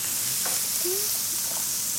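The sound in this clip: Meat sizzles on a grill pan while being cooked for a Christmas meal, the oil put on the meat rather than the pan. A loud, steady, bright hiss continues without a break and no one talks.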